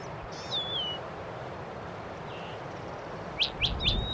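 Finches chirping: a drawn-out call at the start, then a quick series of three sharp chirps near the end, all faint above a steady background hiss.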